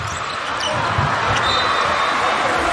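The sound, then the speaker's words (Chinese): Basketball dribbled on court during a Korea versus Jordan game, a few low, dull bounces under steady, loud crowd noise. “李贤仲啊，带球过半场，把球再交出去”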